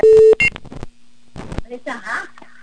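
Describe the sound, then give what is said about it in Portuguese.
A telephone busy tone after a dropped call sounds as one loud, steady electronic beep at the start, followed by a shorter burst, then a person talks. “Alô, caiu a ligação? Cadê, minha filha? Tô esperando você responder. Aqui caiu a ligação, meu pai do céu.”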